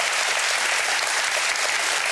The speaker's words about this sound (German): Schicken Sie ihm mal einen großen Applaus.